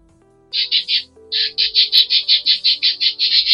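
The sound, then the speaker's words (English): Pet birds call in shrill, high chirps: a quick burst of three, a short pause, then a long, evenly paced run of many more. “And those are my birds. Say hello.”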